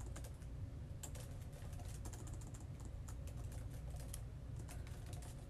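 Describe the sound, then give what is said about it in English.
Typing on a computer keyboard: a steady stream of many quick, light key clicks over a low, constant hum, with no voices. “I'm just going to type something in real quick.”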